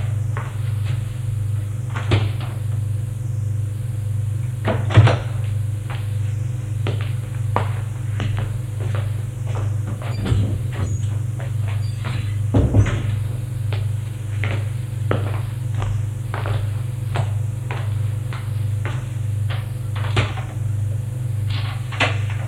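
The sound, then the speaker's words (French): Someone searching through cupboards: cupboard doors open and close repeatedly, with many knocks, bumps and clatters scattered over a steady low hum. “Il entre dans le champ et cherche dans les armoires.”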